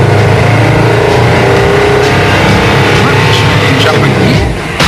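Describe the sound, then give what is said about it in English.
A lightweight prototype compressed-air car pulls away after the clutch is let out, with a loud, continuous roaring hiss that holds steady and dips slightly at the very end. “The key to an air car is to keep everything lightweight so you get the best possible mileage. Good to go. Clutch out. Hey, it's working.”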